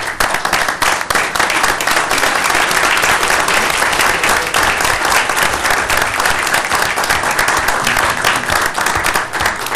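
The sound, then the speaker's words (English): Sustained applause from the room at a Senate conference committee meeting, honoring legislative staff. Dense, loud clapping from many hands runs steadily for the whole clip with no breaks and no talk over it. “I think we owe them all a round of applause.”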